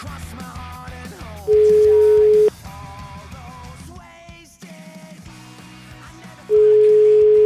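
Ringback tone while a telephone call is placed: two long, steady, mid-pitched rings several seconds apart, heard over background music.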